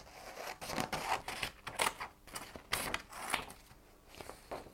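Scissors cut through a piece of paper in a string of crisp, irregular snips and rustles, each one a short bright burst. No one speaks.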